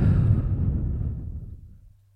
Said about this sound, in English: You take a deep breath, in and out.